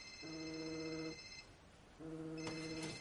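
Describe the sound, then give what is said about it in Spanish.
A mobile phone rings with an incoming call. Its ringtone plays as two faint bursts of repeating electronic tones, separated by a short pause. “Coge el móvil y lo observa. La pantalla reza, Asun llamando.”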